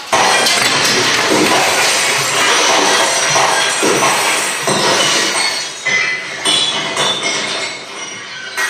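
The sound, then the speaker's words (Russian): Glass shattering as a thrown stone strikes a glass wall on a stage: a loud, dense crash of breaking glass with many clinking shards that runs for several seconds, then thins into scattered tinkles and rattles toward the end. “возвращается с камнем и бросает его в стекло.”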